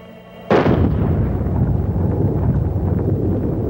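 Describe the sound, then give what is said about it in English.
A .30 caliber high-powered rifle shot fired at a Master Lock model 15 padlock: one sudden, very loud blast followed by a long, dense rumble that keeps going to the end. “With this high-powered 30 caliber rifle, we're going to try to blast open this master lock model number 15.”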